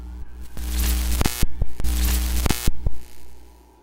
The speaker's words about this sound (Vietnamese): Long chỉ là những tiếng rè rè khó chịu từ đầu bên kia thổi lại